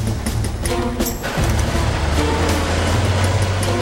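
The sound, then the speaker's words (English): A truck hauling a trailer with a refrigerated hold pulls away, its engine a low, steady droning rumble that dips briefly, then returns fuller and holds loud to the end. “As the truck pulls away, Jasper spills his coffee.”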